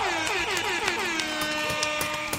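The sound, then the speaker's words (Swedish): A loud air horn sound effect blares continuously for a couple of seconds. Its dense, brassy tone wavers and swoops in pitch, and no one speaks over it. “En applåd och en tuta på det.”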